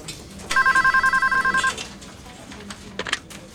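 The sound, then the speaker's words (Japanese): A telephone rings in an office: a single burst of rapid, evenly pulsed electronic trilling lasts just over a second, followed by softer clatter and background noise. “小李打来了电话。电话转接到小野处。”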